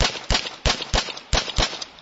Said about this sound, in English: He says the deputy was never threatened and should not have discharged his weapon.